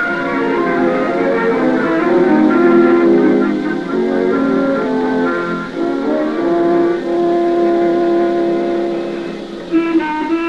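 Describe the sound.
An old bus, back on the road after three years out of service, runs and drives with a loud, continuous droning engine tone whose harmonic layers shift slightly in pitch; no one speaks.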